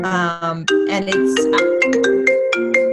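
A phone ringtone rings out as a loud, melodic electronic tune of quick stepped notes, running without pause through the whole stretch.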